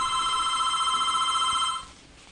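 A telephone rings for an incoming call-in caller, sounding one bright, sustained electronic ring with a buzzy, harmonic-rich tone that cuts off abruptly near the end.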